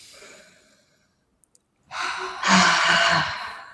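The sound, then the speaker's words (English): A deep breath taken during a guided self-reflection: after a near-silent pause with two tiny clicks, air is drawn in, then let out in a longer, louder, sigh-like exhale. “Okay, good. So deep breath.”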